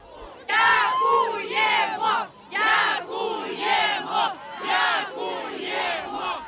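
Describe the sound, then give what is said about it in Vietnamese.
Residents of Kherson cheer on 12 November after Russian troops withdrew, a loud crowd surrounding Ukrainian soldiers and shouting thanks in rhythmic, chant-like bursts of many voices. “Âm thanh mà quý vị đang nghe là những lời hò reo của cư dân Kherson vào ngày 12 tháng 11 sau khi quân Nga rút đi. Họ vây quanh những binh sĩ Ukraine có mặt trong thành phố, hô vang cảm ơn.”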